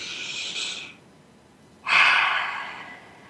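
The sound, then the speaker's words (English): A deep breath during a guided seated exercise: a soft, airy intake, a brief pause, then a longer, louder exhale that gradually fades, with no talking. “And take a deep breath.”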